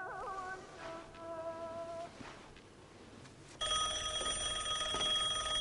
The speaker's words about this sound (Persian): شوهر خوب یعنی این، تا اسمش آوردی زنگ زد.